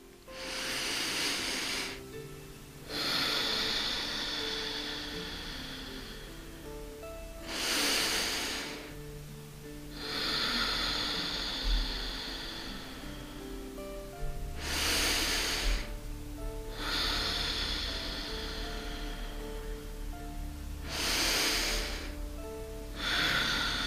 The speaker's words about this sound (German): Ich schließe meine Augen und atme viermal tief durch die Nase ein und aus.